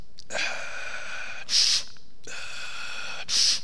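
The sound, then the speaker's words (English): A voice imitates a man's labored, machine-like breathing in two cycles. Each is a long, rasping, throaty draw followed by a short, sharp hiss, with a pause between the cycles. “I heard him over here because this is the way he breathed, and I'm not making fun. Yeah. It's the way he breathed.”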